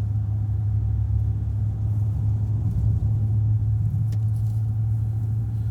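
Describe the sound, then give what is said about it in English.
Steady low road rumble of a car cruising on a highway toward the 280 East exit, a continuous engine and tire drone holding even loudness throughout, with no voices. “There's another one. Why are people driving so slow? We get off at 280 East.”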